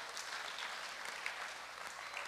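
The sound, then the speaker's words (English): Congregation clapping hands in church: faint, steady, even applause that holds the same level throughout without a pause. “Clap your hands for Jesus, somebody.”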